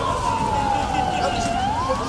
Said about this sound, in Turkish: Olay yerine itfaiye, polis ve ambulans ekipleri sevk edildi. Ambulans şu anda geldi.